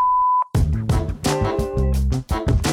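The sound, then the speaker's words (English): A single steady, mid-pitched voicemail beep holds for under half a second, then a brief silence before louder sound starts. “If you have some feedback for us, leave it after the tone.”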